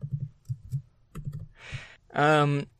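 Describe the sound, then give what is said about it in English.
Computer keyboard typing into Google Docs: a few sparse clicks and soft thumps from the keys, followed by a brief tonal sound at the end. “I pressed the wrong button and Google Docs went insane. Let me just write down the time.”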